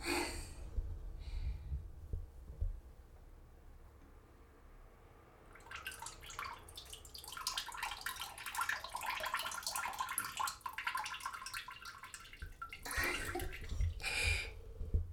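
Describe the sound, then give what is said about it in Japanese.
A seated person urinates into a toilet, producing a faint, steady hissing stream that runs for several seconds. A couple of short splashy bursts follow it. “おしっこの音の収録ではないのにしちゃいました。”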